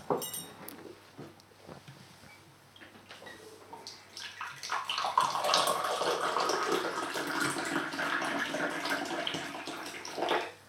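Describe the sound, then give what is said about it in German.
Ginger tea poured from a teapot into a cup, a steady liquid trickle and splash that swells after a few seconds and runs on continuously, fairly soft, with no talking. “Das ist Tee, den ich aus einer Kanne gerade in Jos Tasse gegossen habe. Es ist keine Lüge. Ich mache das wirklich und es ist wirklich Ingwertee.”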